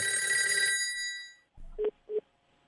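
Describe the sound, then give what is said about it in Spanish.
A telephone rings with an incoming call, a bright electronic ring that holds for over a second and then fades. A low thud and two short, lower tonal blips follow. “Tenemos una llamada por la 95.”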